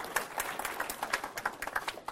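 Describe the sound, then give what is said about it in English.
An audience applauds to welcome a speaker to the front at a church service: dense, continuous clapping from many hands, even in level and sustained across the whole stretch. “And if you would just put your hands together and welcome her.”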